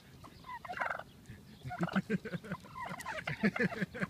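Turkeys gobble in quick, warbling bursts, with several calls overlapping and following one another. The gobbles are moderately loud over a low background rumble.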